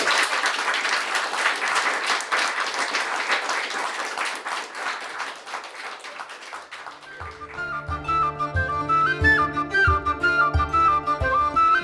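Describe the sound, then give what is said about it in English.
Audience applause closing a live evening panel event: several seconds of dense, sustained clapping that eases slightly, then gives way to music with a steady beat and melody that fills the rest. “So, can we get a big round of applause?”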